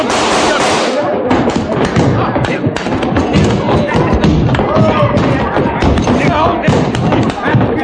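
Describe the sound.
Gunfire from a gun grabbed off a table, heard as several sharp bangs and thuds amid loud, dense commotion with voices talking over it.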